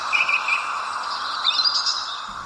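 Wild birds chirping in a province of western Afghanistan, where sparrows, crows, hawks, hoopoes, pigeons and nightingales live; quick high tweets come in two short flurries over a soft, steady hiss.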